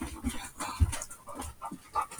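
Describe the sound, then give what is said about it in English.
A dog pants in quick, breathy bursts that repeat unevenly, with no voices present. “Well, here's the dog.”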